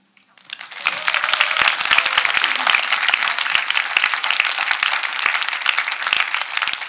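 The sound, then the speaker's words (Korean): Audience applause at a youth church gathering, rising quickly from quiet into dense, steady clapping from many hands that holds at an even level for several seconds. “박수 쳐주고 싶지 않아?”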